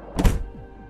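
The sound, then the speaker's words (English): A front door slams shut with a single heavy, low thud, followed by a brief fading rumble. “Then, the front door slammed shut.”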